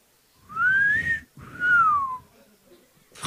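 A person whistles in imitation of a parrot, giving two loud, clear notes separated by a short gap. The first note bends slightly upward and the second glides downward, with quiet breathy noise between them.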